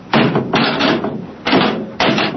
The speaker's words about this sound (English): Well, you'll slam the hatch and off we go.